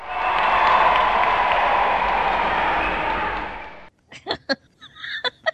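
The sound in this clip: A baseball crowd at Citizens Bank Park cheers and applauds in a steady, loud roar for about four seconds. It cuts off abruptly, and people then talk.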